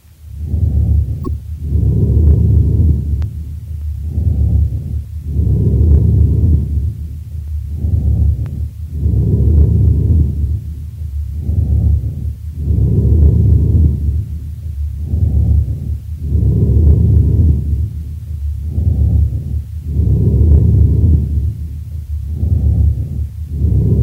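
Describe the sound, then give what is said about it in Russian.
Amphoric breathing, recorded from a patient with a large left lung abscess, repeats in many steady in-and-out cycles. Each breath is a low, hollow, resonant whoosh that swells and fades in a slow, regular rhythm. “вариант бронхиального дыхания – амфорическое дыхание. Оно напоминает звук, получаемый при вдувании воздуха в узкое горлышко пустого сосуда. Прослушайте амфорическое дыхание, записанное у больного с крупным абсцессом левого легкого.”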